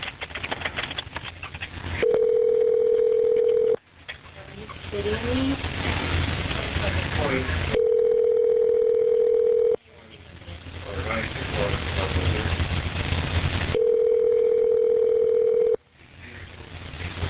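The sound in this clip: Telephone ringback tone as an emergency dispatcher calls a caller back: three steady, even ring tones of about two seconds each, separated by roughly four-second gaps of line noise.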